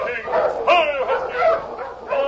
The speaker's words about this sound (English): Hey, it's a dog team. Wonder who's out in this storm.